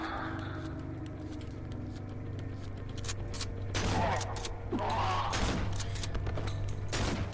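Video game shotgun blasts come in a few broad, heavy bursts over a faint steady hum, mixed with many quieter sharp clicks.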